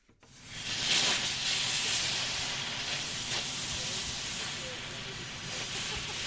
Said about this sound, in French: Ce que vous êtes en train d'entendre, c'est le bruit d'un chalumeau professionnel utilisé pour faire fondre de l'acier et pour découper en plusieurs morceaux la cheminée de l'ancienne chaufferie